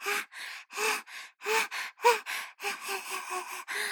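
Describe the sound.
A person's voice imitates a dog panting with its tongue out: many quick, breathy huffs in a steady rhythm that grow shorter and faster toward the end.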